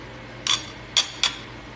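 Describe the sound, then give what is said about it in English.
Three short, sharp taps with a slight metallic clink as a blunt butter knife cuts into a papaya. The first tap stands apart; the last two come close together. No voices. “You see, I'm cutting into it with a butter knife.”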